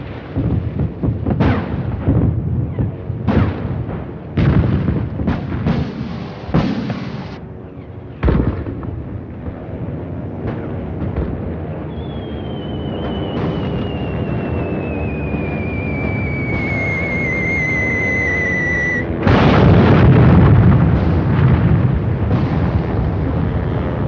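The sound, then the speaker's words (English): Bombs fall and explode during a WWII Blitz air raid on London: heavy booming blasts hit one after another, then a long high whistle slides slowly downward before a loud explosion and a deep lingering rumble. “And then it just intensifies as the bombs are falling closer and closer.”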